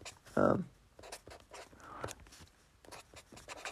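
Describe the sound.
Pen scratching as notes are written down by hand on paper: one louder knock near the start, then a series of short, dry scratchy strokes at irregular intervals, faint and papery throughout.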